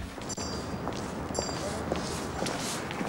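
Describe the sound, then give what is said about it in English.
Footsteps of two people walking home side by side after leaving a fish bar, a steady patter of steps heard over continuous background noise. “They leave the fish bar, walking home side by side.”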